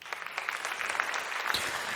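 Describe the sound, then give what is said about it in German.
Audience applause at a live stage show: a dense, steady patter of many hands clapping, fairly faint and even across the two seconds, with no voices standing out. “Applaus für mich.”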